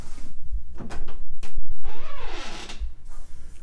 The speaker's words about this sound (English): And then, with some privacy, we simply lock the door.